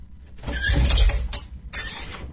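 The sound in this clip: A door being opened, giving a creaking mechanical scrape that swells, breaks off, then returns in a second shorter burst, with no voices.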